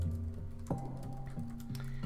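Quiet typing of code on a computer keyboard: a few soft, scattered key clicks over a low steady background hum.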